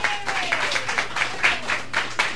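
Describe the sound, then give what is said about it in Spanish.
A crowd at an early-morning gathering applauds with many hands clapping together in a steady, rhythmic beat, the accents recurring at a brisk even pace under a continuous layer of clapping. “denle un aplauso a Jaime Guarín.”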